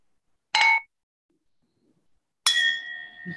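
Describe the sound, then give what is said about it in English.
Wine glasses clink twice in a toast at a wine tasting, a bright short chink followed later by a second clink whose clear high ring lingers and slowly fades. “So I have put it in the glass. So yeah, let's cheers.”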